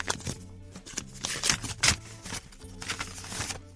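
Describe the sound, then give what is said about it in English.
An envelope is opened, giving faint paper rustling and crinkling in a few short, uneven bursts. “And now for the results, I am opening the envelope.”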